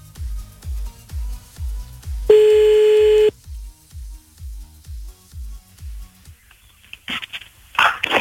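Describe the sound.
A telephone is redialed after a dropped call: one steady, loud beep tone lasts about a second, set over a regular run of low, soft thumps, with brief hissing bursts near the end.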